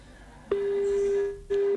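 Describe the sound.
Telephone ringing tone as a call is dialed: one steady, single-pitched tone lasts nearly a second, then after a brief gap a second, shorter tone sounds over faint background hiss.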